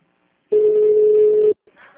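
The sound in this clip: A telephone tone follows a dropped call: one steady, mid-pitched beep lasting about a second in silence, after which a voice starts faintly.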